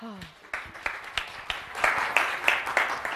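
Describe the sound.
Audience applause welcomes a speaker to the stage at a conference talk on brand building. A voice trails off as scattered claps begin, then the clapping swells into steady, fuller applause.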